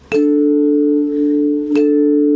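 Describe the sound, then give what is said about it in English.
Choir chimes ring out as two separate strikes, each a clear, bright tone that sustains steadily before the next. No voices or other instruments accompany them. “I was able to purchase these choir chimes that I've been using with the women and children, and they really love using these because they can play music and make melodies. They sound like this.”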